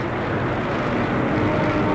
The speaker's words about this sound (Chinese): 93架由伊尔28轰炸机和歼5米格17组成的歼击机群从天安门广场凌空掠过